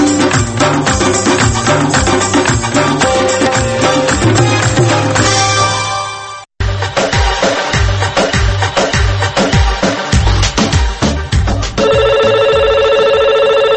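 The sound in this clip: A telephone rings as a caller phones in. Music plays through most of the stretch, with a brief dropout near the middle, then a steady electronic ringing tone sounds alone at the end.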